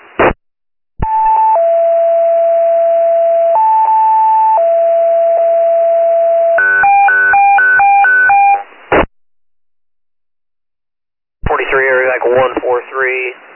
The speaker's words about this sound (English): stand by for tones